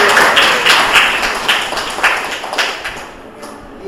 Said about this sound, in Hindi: इसके लिए तालियां बजाइए जोर से।